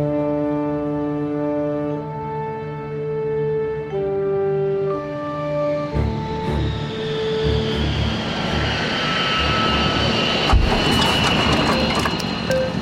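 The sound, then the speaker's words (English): A science-fiction shuttle comes in to land. A layered, shifting electronic hum gives way to a broad, loud rushing roar that holds steady to the end. “Shuttle landing complete, Captain. Smoothly done, Lieutenant Little.”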